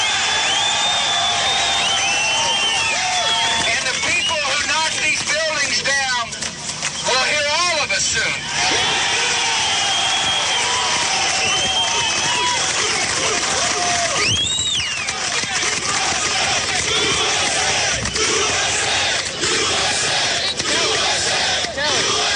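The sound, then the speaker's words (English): A large crowd roars, cheers and chants in a continuous dense wall of shouting at a mass gathering, loud and unbroken throughout, with a brief shrill whistle cutting through near the middle. “that is the spirit. That is the spirit to me that you hear at a Trump rally.”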